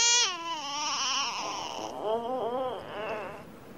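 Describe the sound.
Baby crying from the animated film Ice Age: one long, loud, high wail that slides downward, then several shorter wavering cries that rise and fall, with no one talking.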